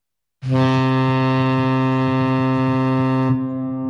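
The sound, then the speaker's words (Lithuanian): A deep horn blast from a large excursion steamboat on the Nemunas river loops at Birštonas, one sustained, steady-pitched tone of about three seconds, rich in harmonics and loud, ending with a faint lingering tail. “Kiekvieną savaitgalį banginio dydžio garlaivis jūsų patogumui po gražiausias Birštono Nemuno kilpas.”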